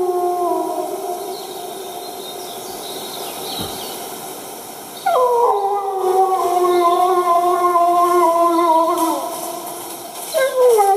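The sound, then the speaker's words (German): A wolf howls at middle distance in long, sustained tonal calls with rich harmonics. One howl fades as a louder one takes over and holds for several seconds, and another howl begins near the end. “Wolf aus mittlerer Distanz”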